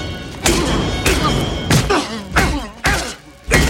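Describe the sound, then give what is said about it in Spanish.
Cannon shells strike a man's temples in a series of heavy, blunt thuds. Several hard, loud blows land at uneven intervals, each with a short, rough decay. “Alejandro le golpea las sienes con las granadas.”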